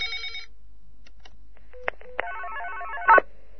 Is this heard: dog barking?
no

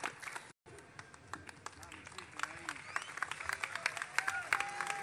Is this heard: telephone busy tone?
no

